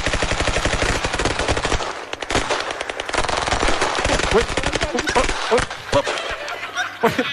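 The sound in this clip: Rapid gunfire from rifles shooting at a target: many sharp, loud shots crack in quick, overlapping bursts that run almost without pause through the whole stretch.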